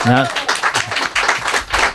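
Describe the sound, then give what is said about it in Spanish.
Brief spontaneous applause from a live audience of radio listeners, scattered claps that follow a voice and then continue on their own. “Pero gracias a oyentes como estos que están aquí. Estos aplausos espontáneos son fenomenales.”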